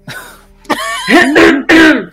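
Loud throat clearing: a few rough, raspy, voiced bursts in quick succession, heard alone without speech.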